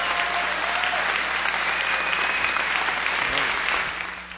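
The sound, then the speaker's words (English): Rousing applause welcomes a speaker to the stage, a dense, even roar of clapping that holds steady before tapering off at the very end. “Here is Michael Parenti receiving a rousing welcome.”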